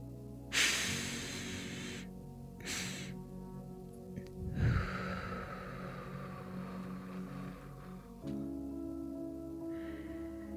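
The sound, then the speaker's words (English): Two quiet inhales through the nose, the first longer than the second, are followed by a slow, drawn-out exhale through the mouth as part of a calming breathing exercise. “you take two inhales through your nose, the first one longer than the second, and then exhale slowly through your mouth. Let's try it together.”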